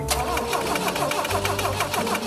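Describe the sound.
A BMW car engine cranks as someone tries to start it after its ignition has been adjusted, with the engine refusing to catch. The starter churns in a fast, steady, loud rhythm throughout.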